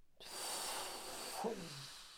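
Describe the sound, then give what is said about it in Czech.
A long, breathy voiced inhalation is drawn during a breathing exercise while slowly lowering a leg. It is soft and airy throughout, with a short voiced tone near the end that slides downward in pitch. “Nahoru nádech.”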